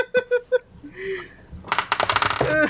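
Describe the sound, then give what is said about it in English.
Computer keyboard typing: a quick burst of many light key clicks fills the second half, preceded by a few short tonal blips and a brief whistling tone. “I'm typing it in chat”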